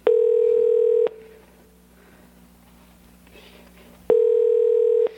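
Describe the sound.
Two long, steady ring tones of a phone call ringing out, each lasting about a second, separated by a few seconds of quiet low hum.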